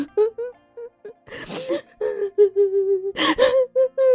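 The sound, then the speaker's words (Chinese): A woman bursts into tears, crying into a pillow: gasping sobs and sharp breathy intakes alternate with wavering, drawn-out wails that stay loud throughout. “二太太趴着枕头哇的一下就哭出声来，她死去的宝贝儿子这时又不顾场合的出现在了她的哭声里。”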